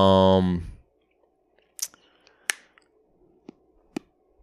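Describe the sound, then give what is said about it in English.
Sharp clicks of someone biting off a fingernail and chewing on it. A few crisp, isolated snaps come in the quiet after a short burst of speech. “Did you bite off your nail and you chewing on it? I heard it in the mic. Yeah. I can still hear it.”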